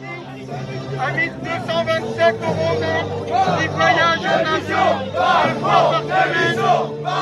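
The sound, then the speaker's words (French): Crowd of yellow vest protesters at a rally at Les Invalides in Paris, voicing anger over police violence. Massed voices shout and chant loudly and continuously, with rhythmic surges of chanting throughout. “comme vous l'entendez, les Gilets jaunes, pour brandir en vrac leur colère des violences policières”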